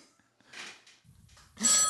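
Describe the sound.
A telephone rings with a bright, metallic electronic burst near the end, following a few faint, muffled sounds.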